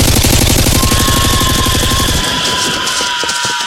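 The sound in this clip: Machine gun fire from a video game: rapid, evenly spaced shots rattle loudly for about two seconds, then give way to a rougher, less regular stretch of game noise.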